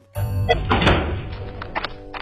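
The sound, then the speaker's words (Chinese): A door is slammed shut as someone storms out of a restaurant, making a single sudden heavy thud followed by a brief rattling rumble. “说着话，扁坨坨摔门而出”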